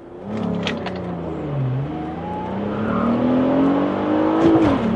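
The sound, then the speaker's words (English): Drag racing car accelerating flat out through its gears, foot held down to just below the rev limiter: a loud, continuous engine roar whose pitch climbs and then dips at a gear change. “Okay, now when you're doing this, you never lift your foot off the accelerator. You just keep your foot all the way down. And you go right before your rev limiter. And you just keep shifting and we're done.”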